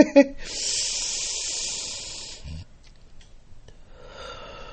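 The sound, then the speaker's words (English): A deep breath drawn in during a guided affirmation exercise, a long, steady breathy hiss lasting about two seconds, followed by a quieter rustle. “And let's take another deep breath in.”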